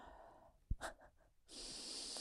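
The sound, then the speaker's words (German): A person exhales breath: a soft thump and a few short breathy puffs, then a steady, loud rush of air that carries on to the end, with no talking. “Ich muss mal ganz kurz ausatmen.”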